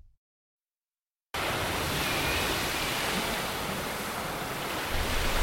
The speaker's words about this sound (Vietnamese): Ông đứng nhìn những đợt sóng biển lăn tăn, hơi đục và ngã sang màu vàng.